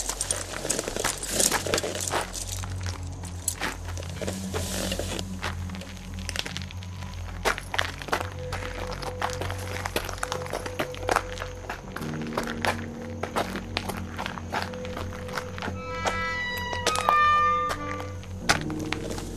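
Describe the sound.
Cautious footsteps approach through the dark toward a house, crunching and crinkling over a rough surface. Many uneven steps and soft thuds continue throughout at a moderate level.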